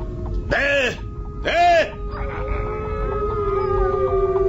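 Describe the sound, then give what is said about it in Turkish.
Wolves howling as a radio theater sound effect on snowy slopes: two short, arching howls in quick succession, then a thinner, sustained wavering tone over a steady low rumble. “Bu sesler de... Vay canına, kurt sesleri. Karı görünce bayırdan düze inmişler.”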